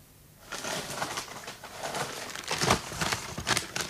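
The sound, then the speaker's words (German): Paper rustling and crinkling as a stack of grey envelopes, taken from a just-unlocked cupboard, is handled and shuffled. The noise is continuous, with sharper crackles now and then, and nobody speaks. “Was ist denn das? Ein Stapel von grauen Umschlägen? Ein ganzer Stapel? Gib mal her.”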